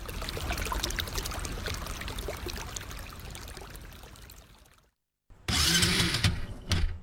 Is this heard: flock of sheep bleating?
no